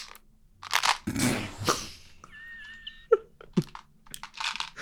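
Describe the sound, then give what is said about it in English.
Clicking and crunching from a toy Tic Tac gun dispenser: sharp clicks and rustling, crackly bursts, with a brief high whistling tone in between. “Little Russian roulette. I'm playing with my Tic Tac gun.”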